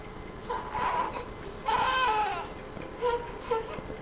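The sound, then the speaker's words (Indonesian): Fussy baby crying, whiny rather than pained: a few short, moderately loud wailing bursts, the second the longest, separated by brief quiet gaps. “Tidak mengejankan itu ya. Agak lebih manja gitu ya kedengarannya. Iya, betul, agak lebih ringan gitu ya tangisannya.”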